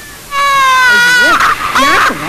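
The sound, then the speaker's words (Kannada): A hungry infant cries and fusses in loud, sustained wails that begin after a brief pause, then break into wavering sobs that rise and fall in pitch. “ಬೆಳಿಗ್ಗಿಂದ ರಚ್ಚೆ ಹಿಡ್ದಿದ್ದಾನೆ, ಊಟ ತಿನ್ನಿಸ್ಲಿವಾ? ಅಯ್ಯೋ, ನೀನ್ ತಿನ್ನಿಸ್ಲಿವಿನೆ ಮಗಳೇ, ಅದಕ್ಕೆ ಹಶ್ವಾಗಿ ಮಗು ಹಠ ಮಾಡ್ತಾ ಇದೆ.”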